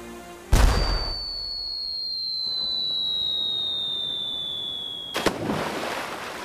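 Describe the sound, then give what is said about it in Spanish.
Cannons fire to the left: a sharp, heavy boom, then a long, high whistling tone that sinks slowly in pitch for several seconds, closed by a second, softer boom. “¡Disparen cañones a la izquierda!”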